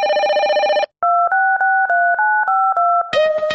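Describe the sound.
Seven telephone dialing tones beep in quick, even succession, each a steady two-pitch tone. A buzzing tone comes before them and a harsher ringing signal follows.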